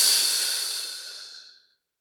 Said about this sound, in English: and hold it in your lungs. And release.